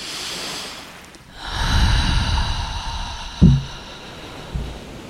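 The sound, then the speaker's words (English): A slow, deep breath drawn in through the nose and let out through the mouth: a soft airy rush lasting a couple of seconds, followed by two brief low thumps, the second fainter. “Let's take a beautiful breath here through the nose and exhale through the mouth.”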